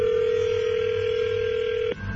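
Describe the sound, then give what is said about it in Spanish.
A telephone ring tone sounds while a call is being dialed: one steady, low electronic tone held for about two seconds before cutting off abruptly, leaving faint line hum. “vamos a marcarle de nuevo y tú le contestas”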